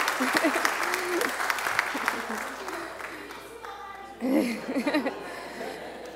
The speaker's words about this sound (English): Let's give them a hand.